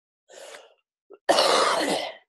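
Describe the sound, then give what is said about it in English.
A person coughs: a short breathy burst, a tiny catch, then a longer, harsh, noisy cough that trails off, with no talking. “Ooh, cough coming up. Hold on.”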